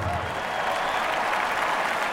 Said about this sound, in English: Ladies and gentlemen, please give a warm Spartan standing welcome to former associate principal trumpet from the Boston Symphony Orchestra, trumpet soloist Tim Morrison.